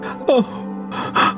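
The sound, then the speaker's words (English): A man sobbing in tall grass: short, loud gasping sobs, the first with a whimpering cry that falls in pitch, followed by a second strained breath after a pause. “just off the path to your left, you hear this sobbing. It sounds like a man sobbing.”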